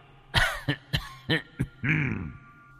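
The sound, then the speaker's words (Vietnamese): An old man coughs violently outside a door: six harsh, rasping coughs in quick, irregular succession, with the last one drawn out and hoarse. “ở ngoài cửa truyền đến âm thanh ho sù sụ, là ho rất kịch liệt”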